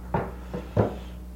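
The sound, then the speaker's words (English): A drawer being opened while searching for a pen: three short wooden clunks over a low hum, the last one the loudest. “I forgot to ask for a pen. Is it in this drawer?”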